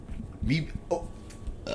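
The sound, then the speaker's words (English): A short, low burp breaks out amid people talking, a brief guttural belch that lifts slightly in pitch before fading back into the conversation. “That was disgusting. A little burp out right there.”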